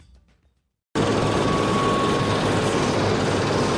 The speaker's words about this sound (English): That's the sound of a helicopter taking off from Esbjerg Airport on Danish Jutland Peninsula's west coast.